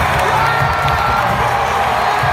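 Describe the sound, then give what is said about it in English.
A crowd cheers at a championship celebration, a dense and loud sustained roar of many voices with scattered shouts that stays steady throughout. “It just doesn't feel like this is a championship celebrating crowd.”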